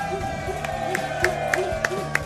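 A studio audience cheers at a live show, a steady crowd roar with rhythmic claps punching through at regular intervals.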